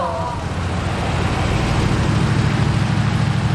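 Low engine rumble from a Mercedes G-Class SUV approaching, a continuous road-vehicle drone that grows slightly louder over the few seconds.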